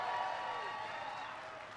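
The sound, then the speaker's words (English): Audience applause at a rally in Michigan, a dense, steady wash of clapping that fades slightly over under two seconds, fairly faint, with no distinct voices above it. “Give me a big round of applause for that outstanding introduction.”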